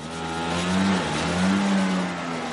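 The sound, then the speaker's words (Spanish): A motorbike engine drones as two riders return at night, holding a steady mid-pitched hum that swells twice in pitch and loudness, like brief revving. “Por la noche, Rucos y Nasé vuelven en la moto.”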